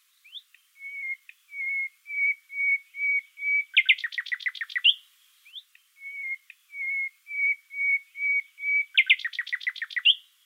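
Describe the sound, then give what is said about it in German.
Nightingale song with its pure whistling motif: two phrases, each a row of steady flute-like whistles at constant pitch that runs into a loud, rapid trill. “Eine Ausnahme, das berühmte Pfeifmotiv aus dem Gesang der Nachtigall.”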